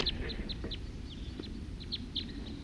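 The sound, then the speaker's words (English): Wild birds chirping: many short, high, downward-sweeping calls repeated in an irregular series over a steady low rumble of background noise. “Wild birds.”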